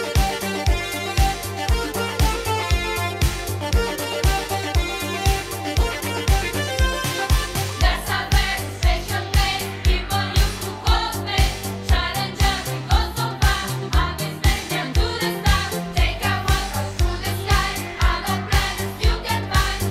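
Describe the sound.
An Italo disco track made by an Italo disco producer with a group of teenagers plays at full level with no talk over it. A steady pounding four-on-the-floor beat drives bright electronic synth lines and bass.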